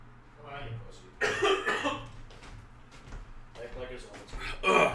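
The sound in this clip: Coughing from someone who accidentally inhaled whiskey: a few harsh, loud coughing bursts with throat-clearing sounds between them, the strongest coming near the start and near the end, mixed in with talk.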